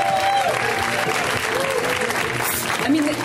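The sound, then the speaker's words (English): An audience applauds a comedian at a comedy show with loud, sustained clapping throughout, while a few voices call out and cheer. “Let's hear right now from Mr. Will Weldon, guys. Give it up for Will.”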